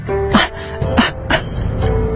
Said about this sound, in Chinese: 他说完，忍不住心口的痛楚，狠狠地咳了几声。